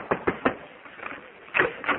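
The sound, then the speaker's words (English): Knocks on a door: three quick, sharp raps at the start, a faint tap, then two more knocks after a pause, with a thin, dull tone. “Yeah, I'll knock on the door and see if you're ready to leave.”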